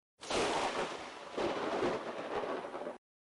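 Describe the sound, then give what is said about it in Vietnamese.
Thunder rumbles as a storm gathers under dark clouds with rain starting to fall: a loud, broad, continuous roar that swells twice, the second swell longer, then cuts off. No voices. “Một trận sấm rền vang lên, cắt ngang lời kể của Grim.”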